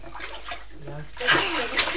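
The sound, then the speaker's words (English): Water splashing in a bathtub as a small boy plays with a yellow sponge, bursts of splatter and slosh that grow louder and busier in the second half. “You're the one having the big splash, not Mummy, not the furniture, not the floor, and certainly not the cat.”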